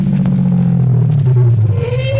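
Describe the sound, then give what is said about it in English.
A car drives up from behind on a road: a steady, loud low engine rumble holds throughout, with a faint higher tone rising near the end. “I was almost there when a car came up behind me and...”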